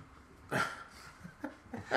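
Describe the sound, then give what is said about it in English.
A dog named Tom makes a few short, sharp vocal bursts, yelps or whines, the loudest near the start and the rest spaced out and quieter, against a low background. “Damn dog. Yeah, go away. Go and lay down, Tom.”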